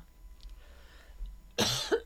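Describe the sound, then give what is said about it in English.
A person coughs near the end, a brief, loud, harsh burst with a second push right after it, breaking a stretch of near silence. “Cough for a minute.”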